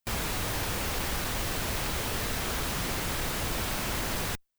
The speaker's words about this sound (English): Pink noise is just it's like a bunch of noise that has all the frequencies with equal power for each octave. So here's what it sounds like by itself.